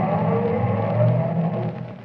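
Car engine droning steadily as the car drives off, a full, even rumble with a slight swell midway that eases off a little toward the end.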